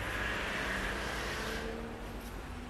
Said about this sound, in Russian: Звук приближающейся машины вывел меня из дремоты.